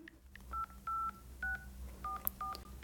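Telephone keypad dialing tones: a series of short electronic beeps at differing pitches, pressed in quick, irregular succession while a number is dialed. They sound fairly quiet over faint background hiss.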